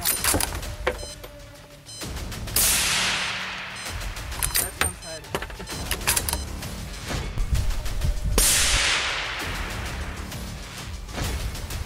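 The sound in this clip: Two loud gunshots from a hunter firing at wild boars, each a sharp crack with a ringing decay, spaced several seconds apart with quieter rustling noise between them.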